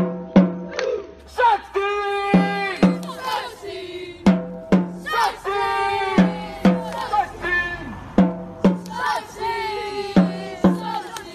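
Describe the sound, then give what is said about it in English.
Young Dumbarton football fans chanting together in a loud, rhythmic, sing-song crowd chant, punctuated by sharp, regular hits and rising and falling in steady waves. “That sound you just heard there was the terrifying sound of the Dumbarton Ultras.”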